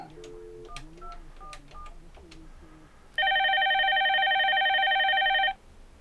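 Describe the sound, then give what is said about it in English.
A phone dials to reconnect a dropped call: a quick run of many short touch-tone beeps at varied pitches, then a single long, steady, louder ringing tone that cuts off abruptly. “maybe he can disconnect and call back and we can reconnect”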